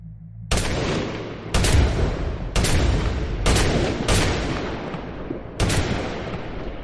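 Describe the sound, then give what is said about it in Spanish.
A police officer fires at a man during a shootout: six loud, sharp gunshots ring out at roughly even intervals of about a second, each followed by a long, rumbling decay. “Le dispara.”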